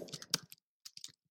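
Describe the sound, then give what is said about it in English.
Quick clicks of typing on a keyboard come in two brief clusters separated by a short silence, faint and with no talk. “God, you're going to make me type the whole fucking thing? Where's my predictive?”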